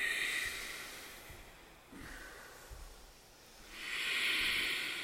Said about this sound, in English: catch the sound of the breath of the person next to you. You create a little chorus.